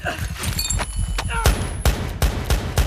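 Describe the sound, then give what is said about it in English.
A rapid series of sharp, loud gunshots as a man lying on his back empties his gun in a dream, the blasts landing close together and each striking hard above a busy, rumbling background. “Rolling onto his back, he unloads his gun.”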